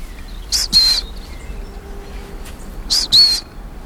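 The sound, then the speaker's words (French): High, thin trills of a long-tailed tit: two short paired bursts of rapid notes separated by a pause of about two seconds, set against a quiet background hiss. “Là, il y a de la mésange à longue queue. La petite trille qu'on entend à peine là.”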